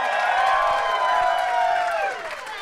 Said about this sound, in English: Shall we welcome out our contestant? Yes. Please put your hands together for Celia Pacquola.